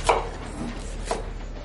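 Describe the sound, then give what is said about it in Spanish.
Knife chopping vegetables on a board in a home kitchen, two crisp strikes standing out above a low steady background hum, no voices. “En su casa corta verduras en la cocina.”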